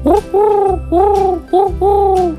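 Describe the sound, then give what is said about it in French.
A human voice imitates the five-beat coo of a wood pigeon with five soft, low, hooting notes in a short-long-long-short-long rhythm. Each note is voiced and mellow. “Ils vont tous les deux roucouler. Mais le pigeon ramier va faire 5 temps. Il va faire un”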